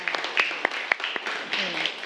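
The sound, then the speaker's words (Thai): Students clapping for a group in a classroom during a math lesson. The applause is brief, fairly faint and scattered, with some sharp individual claps and voices mixed in. “ปรบมือให้กับกลุ่มที่3ค่ะ”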